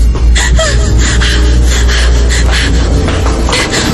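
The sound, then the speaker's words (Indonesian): Heavy panting breath after running to a parking lot: quick, regular noisy gasps repeating several times a second, loud and close, with no talk. “Nafasku terengah-engah.”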